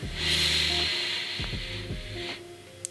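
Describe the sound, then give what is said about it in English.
A deep breath drawn in, a soft airy hiss that swells and holds for about two seconds before fading, with faint clicks afterward. “So we'll take a quick deep breath in”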